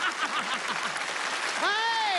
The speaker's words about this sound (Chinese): 朋友们给他鼓掌，我看他怎么办。